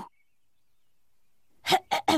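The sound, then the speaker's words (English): A dog sneezing: after near silence, three short, sharp snorting bursts come in quick succession at the end, loud and alone. “Look, let the doggy sneeze!”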